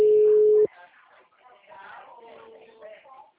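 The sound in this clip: After a dropped call, a loud, steady phone line tone hums for about half a second and cuts off abruptly, followed by a person talking.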